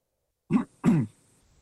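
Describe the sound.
Throat clearing: two short, rough rasping bursts, the second slightly longer, alone against silence.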